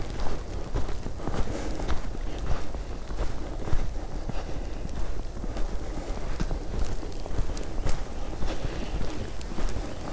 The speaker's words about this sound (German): Sondern lieber hier ein bisschen weiter durch den Wald stampfen.